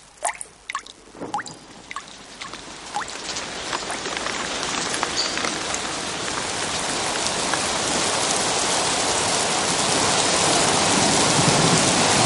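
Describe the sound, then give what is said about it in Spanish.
Heavy rain falls on mud, beginning with a few scattered drips and splats that quickly build into a dense, steady downpour, the loud hiss and patter growing fuller and more continuous to the end. “La lluvia arrecia inundando la huella.”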